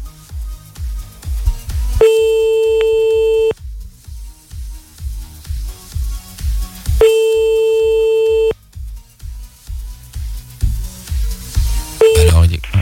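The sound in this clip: A telephone call being redialed meets electronic tones, plausibly a busy signal: two long steady beeps of about a second and a half each, well apart, then a brief third at the end, all over a rhythmic low thumping.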